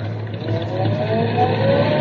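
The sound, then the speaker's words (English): A car engine accelerating as a learner driver works the clutch and gas: a continuous, moderately loud drone whose pitch climbs gradually across the two seconds, with no voices. “Claudia, step on the accelerator lightly. Your mouth, David. I said lightly. Put your foot through the floorboard. Now, easy on the clutch and light on the gas.”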